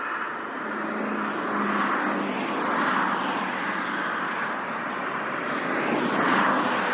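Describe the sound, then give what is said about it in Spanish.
Cars passing along a city street lined with trees planted in concrete: a steady traffic roar that swells and eases a couple of times. No voices are heard. “¡Ah! ¡Son coches! ¡Los coches son terribles! ¡Parece que quieren aplastarme!”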